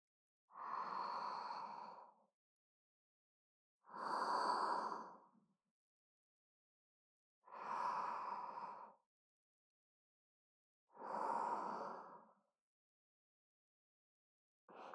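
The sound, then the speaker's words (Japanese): Slow, deep breathing, guided breaths taken at a calm pace. Four full breaths and the start of a fifth sound as long, soft, airy whooshes, evenly spaced, with quiet gaps and no talk. “まずは深呼吸してみようか。ほら、お姉さんに合わせて息をしてみて。”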